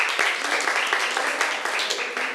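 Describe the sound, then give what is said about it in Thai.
Students clap for a classmate in a classroom lesson, giving a dense, steady patter of hand claps that holds at an even level from start to finish. “เก่งมากค่ะปรบมือให้เพื่อนหน่อยค่ะ”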